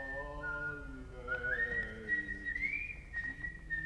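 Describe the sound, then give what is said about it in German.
A man whistles a short, clear tune alone. The pitch holds level at first, then climbs and wavers in the middle before settling, over a faint low hum. “Ihm war nicht ganz wohl, aber er lachte. Und plötzlich pfiff er sogar.”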